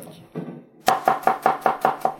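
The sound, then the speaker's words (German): A kitchen knife chops garlic on a board. One softer cut is followed by a rapid, evenly spaced run of sharp, crisp chops, loud and alone with no talk. “Hack jetzt den Knoblauch.”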